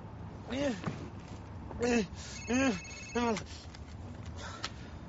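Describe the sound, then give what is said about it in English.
A telephone rings in several warbling electronic bursts with a rising-and-falling trill. The bursts are spaced unevenly over a background hiss. “Why don't you just let that one go to voicemail?”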